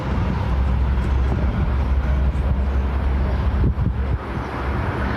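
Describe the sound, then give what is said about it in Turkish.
An Istanbul IETT city bus passes by the roadside in Mecidiyeköy, giving a loud, steady low engine rumble and road noise that fills the whole stretch and eases slightly near the end. “İşte o an. İstanbul Büyükşehir Belediyesi'ne bağlı İETT otobüsü geliyor. Yol kenarında duran vatandaşa rağmen geçişini sürdürüyor.”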